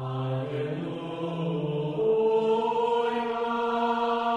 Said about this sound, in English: Music from an ancient wooden horn called the Serpent.